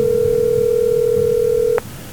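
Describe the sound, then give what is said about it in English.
A telephone rings on the line: one steady, low electronic ringing tone holds evenly for nearly two seconds, then cuts off abruptly, leaving a faint background hum. “And that phone is ringing.”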